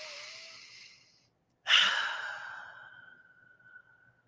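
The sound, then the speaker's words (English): A deep breath in two breathy phases separated by a short silence. The second phase is louder and sigh-like, starting abruptly and trailing off slowly. “Let's take a deep breath.”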